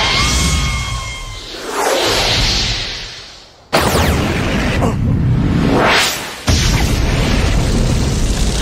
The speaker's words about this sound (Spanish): ¡Miren el poder de mi arma nueva! ¡La resortera gigante de Kabuto! ¡Estrella del Ave de Fuego!